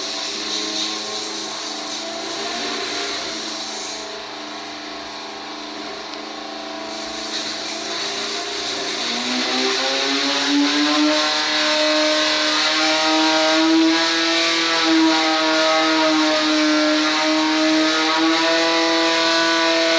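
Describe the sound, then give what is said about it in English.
A car engine revs up in stages to about 7,500 RPM: a steady, buzzing drone dips briefly, then its pitch climbs and holds at a loud, high, even whine to the end, with no talk. “Building up in stages to around 7,500 RPM, which is the highest.”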